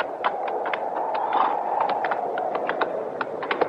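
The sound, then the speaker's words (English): Hooves of a horse with a bad leg clip-clop as it is walked in open country: many sharp, fairly irregular clops over a low, steady background rumble. “How about the horse, Chester? Ain't nothing broke that I can see. See if you'll stand. Come on. All right, walk him a little.”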